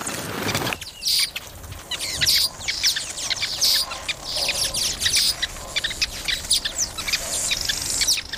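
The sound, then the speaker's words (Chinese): A male weaverbird calls while courting a female, a steady stream of bright, high chirps and twittering notes that repeats throughout without pause. “一只幸运的雄性知雀似乎引起了一只雌性的注意”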